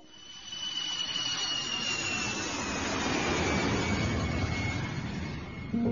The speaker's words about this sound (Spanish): Un avión surcaba el aire rumbo al aeropuerto Jorge Chávez